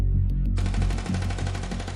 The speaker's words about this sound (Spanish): Instantes después, en la cabina de mando, se escuchó el traqueteo de un arma automática.